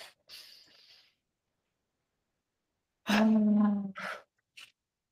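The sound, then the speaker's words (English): A deep breath drawn in through the nose during a breathing exercise sounds as a soft, airy inhale. After a pause comes a louder voiced sigh out, then a couple of brief breathy sounds. “So we're going to start with three inhales in through your nose and out through your mouth. Ready? Inhale.”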